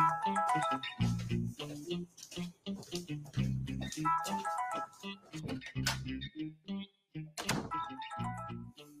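A phone's melodic ringtone plays in a home, a bright repeating electronic tune of stepped notes that is loud and steady throughout, with short gaps between phrases.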